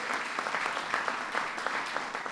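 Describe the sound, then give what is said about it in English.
Audience applause at a Chicago Blackhawks celebration, honouring the NHL deputy commissioner and the team's owner and president: dense, steady clapping that stays at an even level from start to finish. “Give them a big round of applause.”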